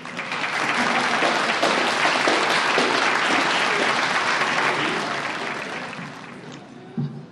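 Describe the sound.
An audience at a Fort Lauderdale Alcoholics Anonymous Big Book study group speaker meeting applauds to welcome a speaker. The clapping is thick and sustained, then thins and fades toward the end, followed by one soft thump.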